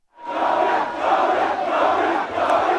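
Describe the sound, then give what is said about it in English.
Supporters chant a name in a crowd celebrating the election of Liberia's new president. The dense, loud mass of voices swells in at the start and then holds steady with rhythmic surges. “what you heard there was his supporters celebrating last night by chanting his name.”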